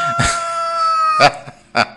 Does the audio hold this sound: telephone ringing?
no